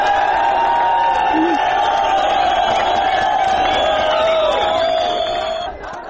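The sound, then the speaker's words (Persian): A crowd of asylum seekers chants slogans at a protest outside Budapest's international railway station, the massed voices loud and continuous before easing slightly at the end. “این پناهجویان شعارهای آزادی آزادی را سر دادند.”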